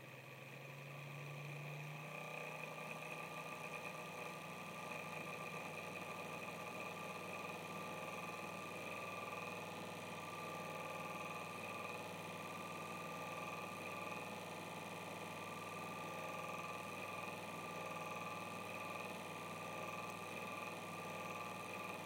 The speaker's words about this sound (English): So the CPU fan on this iMac can go between 1200 and 3600 RPM, depending on the temperature of the CPU.